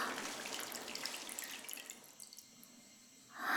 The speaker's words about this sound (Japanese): 一気に溢れちゃったね。お湯半分くらいになっちゃった。